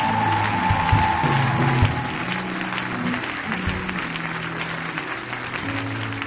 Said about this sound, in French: Est-ce que tu peux acclamer? Est-ce qu'on peut acclamer le nom du Seigneur?